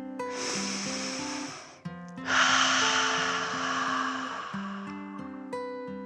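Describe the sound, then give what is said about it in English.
A deep breath is drawn in and then let out, two long airy rushes over soft, steady music, with the exhale longer and louder than the inhale. “So she took a deep dragon breath in and out.”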